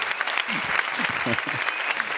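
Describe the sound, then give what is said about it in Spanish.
Audience applause on a television comedy show: steady, dense clapping through the whole moment, with a voice audible over it. “Un gran aplauso para el monaguillo Dani Rovira, Raúl Cimas y Ahí Roncano.”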